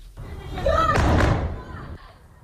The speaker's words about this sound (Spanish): Y este es el sonido de los bombardeos rusos sobre la capital de Ucrania, en Kiev.